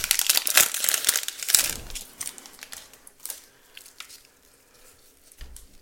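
Crinkly plastic wrappers of 2023 Select UFC trading card packs being torn open, with loud, dense crackling and tearing at first that thins to fainter, scattered rustles.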